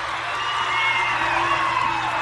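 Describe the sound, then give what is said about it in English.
A professional wrestling arena crowd cheers wildly during a championship match, a loud, continuous roar with whoops and shrill whistles sustained throughout without a break. “This crowd is going crazy.”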